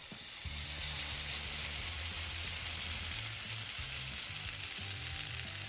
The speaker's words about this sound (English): that is the sound of meat searing on a barbecue